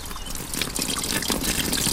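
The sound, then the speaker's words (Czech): Water trickles from a small spring in a valley below a road, a continuous bright babbling wash that runs without pause. “Jsme se od Janderovy vyhlídky vydali na krásné poetické místo, kde zurčí voda”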